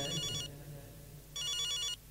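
Mobile phone ringtone sounding in a mosque: bright, repeating electronic tone bursts, one sustained burst, a pause, then a second burst and the start of a third, over a low murmuring background.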